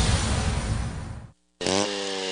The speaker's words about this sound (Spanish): Por apertura, motosierra Raptor de 20 pulgadas a solo $1,000.